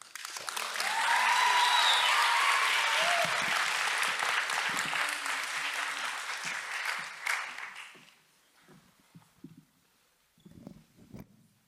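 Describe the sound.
An audience applauds to welcome a student speaker at a gathering. The clapping swells quickly and stays loud for several seconds with a few whistles, then thins out to scattered claps and rustling.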